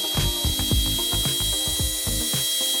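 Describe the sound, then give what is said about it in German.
A dentist's drill working on teeth gives off a thin, steady high whine, with a rapid run of clicking, ratchety taps underneath. “Wirklich niemand, den ich kenne zumindest, ich auch nicht, geht gern zum Zahnarzt und lässt sich da an den Zähnen rumbohren.”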